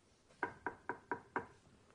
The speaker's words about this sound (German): Bis eines Tages, einige Jahre später, es an der Tür klopfte.